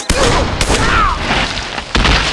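Three sharp gunshots from a handgun in a Western shootout with outlaws. Each is a loud, abrupt crack, the first two close together and the third after a longer pause.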